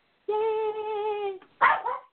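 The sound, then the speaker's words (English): A dog vocalising: a long, steady, high whine followed after a short gap by a sharp bark and a smaller yelp, with no talk. “No, she's barking.”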